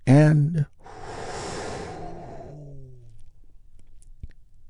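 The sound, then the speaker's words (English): A big, deep breath taken during a guided relaxation exercise. A voice sounds briefly first, then comes a long, airy inhale of about two seconds, released as a soft, voiced sighing exhale that fades out. “we're going to do that by taking a big, deep healing breath all together.”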